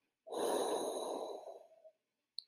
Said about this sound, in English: exhale through parted lips for about 6 to 8 counts. As you breathe out, infuse the breath with the sound of